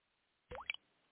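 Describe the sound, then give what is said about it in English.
A single soft liquid plop as unaged whiskey drips through charcoal, becoming Jack Daniel's Tennessee whiskey in Lynchburg, Tennessee. The drop is brief and wet, with a quick two-part tap, alone against near silence. “That's the sound of unaged whiskey transforming into Jack Daniel's Tennessee whiskey in Lynchburg, Tennessee.”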